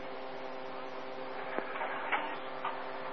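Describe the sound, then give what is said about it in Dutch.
A printer feeding paper, first pulling a blank sheet as it usually does: a steady low whirring drone of the mechanism with a few faint clicks near the end, fairly quiet and without talk. “U hoort vast de printer op de achtergrond. Dan neemt hij zoals gewoonlijk eerst even een leeg papiertje.”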